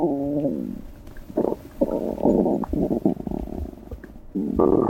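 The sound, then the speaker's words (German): Gurgling and rumbling of a human digestive system, heard as a long run of loud, low, bubbling bursts with short gaps between them and no talk. “Unser Innenleben ist ganz schön laut, wenn man genau hinhört. Es gluckst und gurgelt. Selbst wenn wir ruhen, ist das Verdauungssystem ständig am Arbeiten.”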